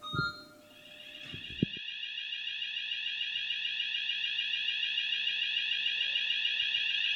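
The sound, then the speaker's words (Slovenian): A hospital corridor alarm sounds to warn staff to clear the way while a COVID patient is transported, a steady high electronic tone with rapid pulsing that continues without a break after a brief noisy start. “To je alarm, ki opozarja na to, da transportiramo COVID bolnika po hodniku in da se je potrebno umakniti.”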